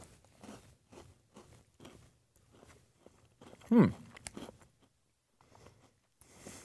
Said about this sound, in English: Those are cookies, seems like. Hard on the top and the bottom here. Let's check it out here, the Peanutter. Let's try it.